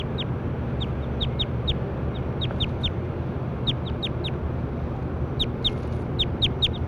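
A bird calls in repeated high, thin chirps, each short and dropping slightly in pitch. The chirps come in loose clusters with gaps between them, over a steady low background rumble.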